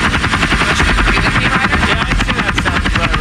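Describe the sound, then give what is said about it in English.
Helicopter rotor and engine, very loud, with a rapid, regular chopping pulse over a dense roar that stays constant from start to finish. “How are people talking at a normal level when there's a helicopter right beside them?”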